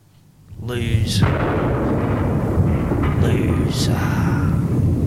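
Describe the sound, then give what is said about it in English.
Air-raid style explosion effects roll like thunder: a continuous loud rumble rises from near silence, with two hissing bursts cutting through. “And it sounds like a bit of an air raid too.”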